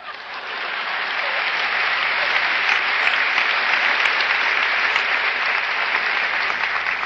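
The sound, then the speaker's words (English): An audience applauds at a lecture, dense clapping that swells over the first second or two and then holds steady to the end, with no voices. “it's premature, your applause, you will soon know why.”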